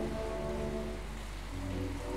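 Heavy rain pours down outside, a steady, dense hiss that holds at an even level from start to finish with no voices over it.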